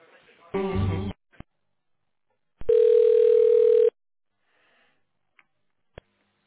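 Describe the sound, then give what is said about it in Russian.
Telephone line tone while a support call is transferred: a steady, single-pitched tone lasting about a second, preceded by a short harmonic burst and followed by a few faint clicks. “Поэтому звонок я перевожу.”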